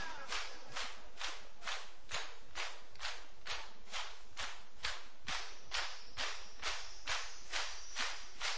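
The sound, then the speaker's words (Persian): Steady, rhythmic chest beating by mourners performing sineh zani at a Shia mourning gathering for Hussein. Many loud, hollow thumps repeat at about two per second in an even, unbroken pulse, with no voices. “میخوام فقط سینه بزن.”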